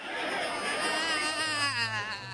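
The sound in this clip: Pressed, strained screams in an experimental tape sound collage: sustained high voices with a wavering, trembling pitch over a low hum, loud and steady throughout.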